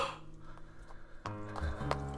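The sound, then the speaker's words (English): Clip-clop of a saddled white horse's hooves, a run of muffled hoofbeats over a low rumbling background that grows louder partway through. “When I came to, I found myself slumped across a saddle. I was riding César, the white horse stolen from Lachenel's stable.”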